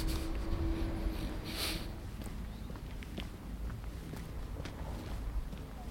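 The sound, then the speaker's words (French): Quick, light footsteps of someone walking briskly: many steady, soft steps at a low level over a continuous background hiss. “je marche un peu vite.”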